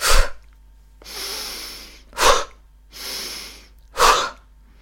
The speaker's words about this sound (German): Einatmen über die Nase, Bauch raus, mach das mal. Und dann schnell über den Mund ausatmen und den Bauch einziehen.